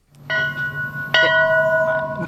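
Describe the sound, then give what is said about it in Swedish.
Ship's bell rung aboard a 35-metre square-rigged brig moored at a museum quay in Stockholm to wake the crew: two clear metallic strikes, each ringing on with bright sustained overtones over low background rumble. “P4 Stockholm var med i morse och ringde i klockan för att väcka besättningen”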